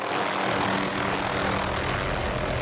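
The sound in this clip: A propeller aircraft drones steadily overhead during an aerial moose hunt over remote woods. The engine and prop noise is loud, continuous and unchanging throughout.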